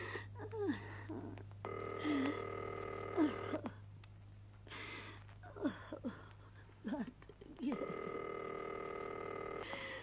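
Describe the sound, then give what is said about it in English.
Telephone line tones sound as a long-distance call is placed: two steady buzzing tones, each lasting about two seconds, separated by a gap, with brief voice sounds around them. “I'll phone the lieutenant governor's office.”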